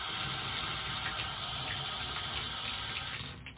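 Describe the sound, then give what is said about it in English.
Water runs steadily into a toilet in a bathroom, a continuous even rushing hiss that dips slightly at the very end, with no voices. “put it over towards the toilet and run water in the toilet as well.”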